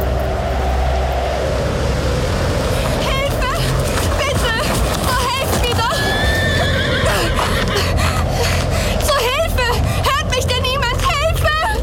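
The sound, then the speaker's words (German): Horse neighing as a rider arrives on a stormy night. Several high, wavering whinnies rise over a constant dense, rough background noise. “In einer stürmischen Nacht, nur wenige Tage später, kam Elizabeth Blassenville dann nämlich höchstpersönlich in die Stadt geritten.”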